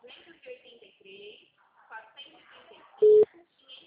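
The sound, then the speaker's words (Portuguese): A single short, steady telephone line beep sounds after a dropped call, loud and mid-pitched, cutting in near the end after a stretch of talking. “desligou ou a senhora caiu a ligação? Alô?”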